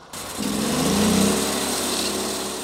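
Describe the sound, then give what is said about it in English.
A sawmill engine on a farm starts up. A short crank gives way to a steady, buzzing, high-pitched running drone that holds at an even loudness. “Here on the farm, I watched him crank up his sawmill.”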